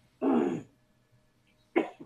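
Throat clearing and coughing from someone with something caught in the throat: a rough half-second clearing, a pause, then a shorter cough with a small follow-up, fairly faint.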